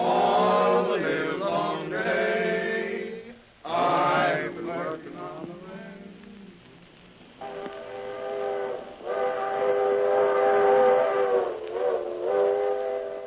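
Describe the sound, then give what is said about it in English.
A small locomotive works in a congested railroad yard, sounding long, tonal whistle blasts over a steady rolling rumble. The blasts pause briefly, then resume in sustained, wavering tones. “Congestion on every track, and only one tiny locomotive to do the work.”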